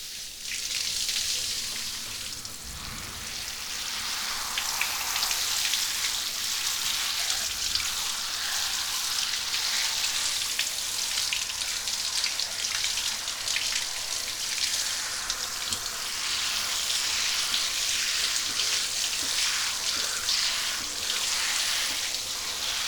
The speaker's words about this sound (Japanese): じゃあ頭流しちゃうから目ギュッとして。